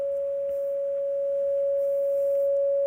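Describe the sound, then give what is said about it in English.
Flatline tone of a heart monitor when the heart has stopped: a single pure, unbroken pitch held steady for about three seconds, swelling slightly in loudness, with nothing else heard. “That's the sound of a heart monitor when the heart is flatlined.”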